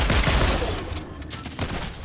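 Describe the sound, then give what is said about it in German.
Rapid gunfire from a shooter video game, a dense, loud fusillade of overlapping shots that crackles on without pause and eases only slightly toward the end, with no talk over it. “Ja, jemand schießt auf mich.”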